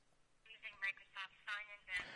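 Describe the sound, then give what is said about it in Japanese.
An iPhone rings with an incoming multi-factor authentication call, giving short tonal bursts that repeat at a steady pace and stay fairly faint. “多要素認証はこの iPhone に電話がかかってきます、ね、電話がかかってきますので”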